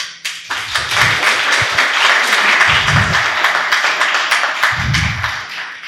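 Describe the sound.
Audience applause welcoming a guest, a Dominican priest: dense, steady clapping from many hands, loud and sustained from start to finish.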